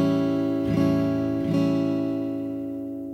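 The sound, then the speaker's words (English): An A7 chord on an acoustic guitar is strummed twice, the two strums close together. It rings out bright and full, then fades gradually with no talking. “And this is how the A7 sounds.”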